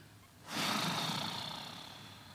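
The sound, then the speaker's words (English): A deep exhale pushed out through soft, relaxed lips, starting abruptly as a breathy rush and then slowly tapering off while staying fairly loud. “breathing out with soft lips, pushing that gentle force out, relaxing so that maybe your lips flap a little bit like that.”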